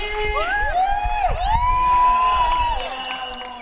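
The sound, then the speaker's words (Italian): A crowd cheering for a DJ: loud whoops and shouted voices that glide up and down in pitch, with a sustained cheer swelling in the middle before easing off. “Leute, einen großen Applaus für DJ Hatzi!”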